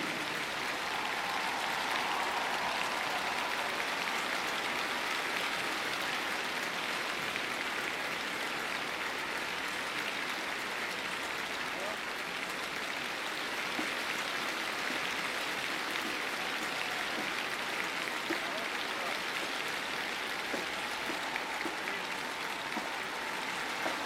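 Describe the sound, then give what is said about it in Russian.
Enthusiastic applause turning into an ovation at a military music festival by the Spasskaya Tower: a dense, even wash of clapping from a large crowd holds at steady loudness for the full stretch, with no talk over it. “И мы провожаем Мирей бурными, переходящие в овации аплодисменты.”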